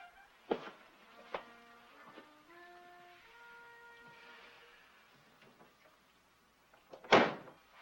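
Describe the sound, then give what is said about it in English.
A door is opened in a quiet scene. A few faint clicks and soft sustained tones come first, then a short, sharp burst of noise. “A man opens the door wearing a bathrobe.”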